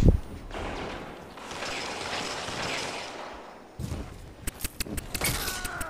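Gunfire in the video game Destiny 2: a steady rushing roar gives way to a rapid run of sharp, loud shots in the second half.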